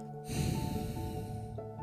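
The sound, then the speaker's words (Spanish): Slow exhale through the nose during a relaxed deep-breathing exercise: a soft, steady nasal rush of air lasting more than a second, at a moderate level, with no talking. “Vamos a exhalar, es decir, a botar el aire por nuestra nariz por 3 segundos.”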